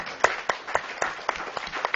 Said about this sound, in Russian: предлагаю в начале и в конце хлопать. Ну, давайте попробуем.